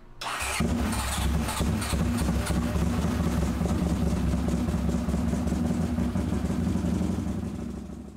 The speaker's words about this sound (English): is it a CX500? Honda CX500, yeah. Can we hear it one more time? Yeah, okay, let's hear it one more time because it is it's cold start and it's just a lumpy old thing.